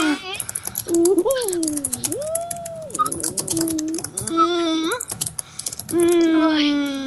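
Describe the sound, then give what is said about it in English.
Extra-hard typing on a computer keyboard, with rapid, loud clacking keystrokes running throughout while voices talk over it. “Extra hard typing.”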